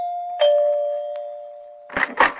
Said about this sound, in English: I had to back up and take a running start to press the doorbell.